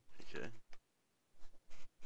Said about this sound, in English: If you just go there, mate, it's just a login page that's just wrecked. Just click on it, bring it up.